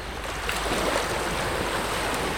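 Sea waves give a steady, rushing wash of surf noise, continuous and fairly loud with no clear breaks between swells.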